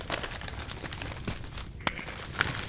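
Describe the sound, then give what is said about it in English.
Wrapping paper crinkling and rustling as a wrapped Christmas gift is opened: a steady, dense crackle of crumpling paper with a few sharper tearing snaps, fairly quiet and with no voices. “Now, I'm going to unwrap this one because I'm really curious what this could possibly be.”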